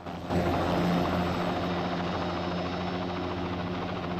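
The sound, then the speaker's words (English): Helicopter flying over an airport: a steady, loud rotor and engine drone with a low thrumming hum that holds evenly throughout, with no voices. “The young woman takes off and flies the helicopter over the airport.”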